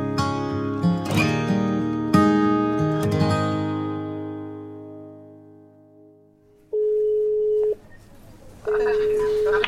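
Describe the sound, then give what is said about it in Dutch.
A phone rings with an incoming call. Decaying melodic chime notes fade out, then two steady electronic ring tones follow, each about a second long with a short pause between them. “Ja, ik moet ophangen. Wordt gebeld.”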